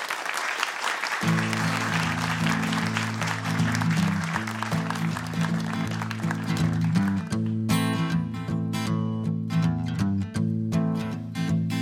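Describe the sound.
Audience applause for a visiting band, a steady wash of clapping over sustained music, loud and continuous throughout.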